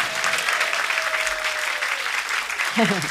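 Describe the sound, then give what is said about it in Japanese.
Audience applause at the close of a live music show as the band members are thanked: dense, steady clapping fills the whole stretch, with a brief voice rising over it near the end. “大きな拍手を。”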